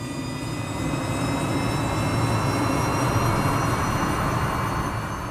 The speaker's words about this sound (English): But once the engines rev and the plane takes to the sky,